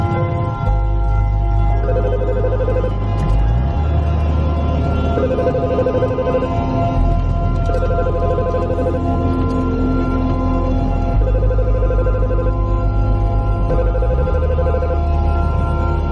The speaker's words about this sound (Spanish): alguien le llama.